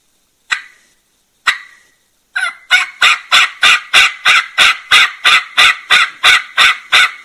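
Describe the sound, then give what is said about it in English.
A man imitates a turkey's yelp with his mouth, opening and closing his jaw. Two single raspy yelps come first, then a long, even, rapid run of many loud yelps follows. “I'm going to jaw action yelp a little bit, okay, where I really open and close my mouth, because that's really how I learned to yelp.”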